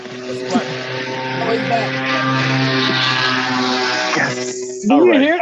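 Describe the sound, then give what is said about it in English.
A small putt-putt car drives past a window, its steady buzzing engine drone holding a harmonic hum at a fairly even level for several seconds before a voice breaks in at the end. “No, that was a little putt-putt car that went past my window.”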